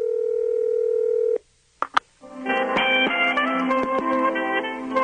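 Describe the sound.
A steady telephone dial tone as a number is dialed to reach a team merchandise shop, cut by two short keypad tones, then tonal music begins on the line.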